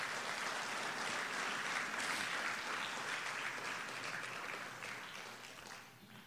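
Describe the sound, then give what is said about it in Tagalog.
An audience at a church service claps for the Lord in steady, sustained applause that slowly tapers off near the end. “Pwede pong palakpakan natin ng Panginoon.”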